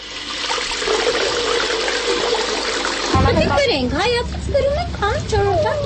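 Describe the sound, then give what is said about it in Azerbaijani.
Water runs from a spring-like tap in a courtyard among multi-storey apartment buildings, a steady rushing flow that continues while a voice starts talking over it midway through. “hər yerində həyətlərdə bulağa bənzər nə isə var. Belə bulaqlar həm yoldan keçən susuzlara kömək olur, həm də bəzən ətrafdakı çox mərtəbəli binaların əhalisinin yeganə su mənbəyidir.”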